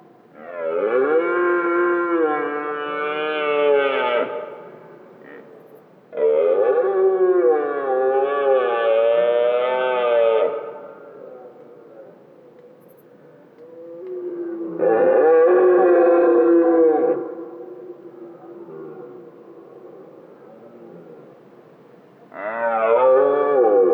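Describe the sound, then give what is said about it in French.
A young red deer stag bellows in a forest clearing with long, loud, rough harmonic roars that waver in pitch. Four calls come in turn, separated by quieter gaps, and the last is cut short. “qui sort et apparaît dans cette clairière et son brame prend tout l'espace sonore.”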